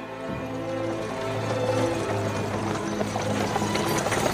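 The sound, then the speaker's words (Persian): A horse-drawn carriage arriving: a steady rolling rumble under a low hum, with light clattering clicks that grow denser in the second half. “کالسکه میرسه و جیران و گلین به سرعت وارد خونه میشن.”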